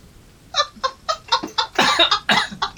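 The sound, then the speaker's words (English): Coughing from someone who has choked on coffee: a rapid series of harsh, raspy bursts that grow denser and louder toward the end, with no speech. “Hang on, I've choked myself. Reckless coffee drinking.”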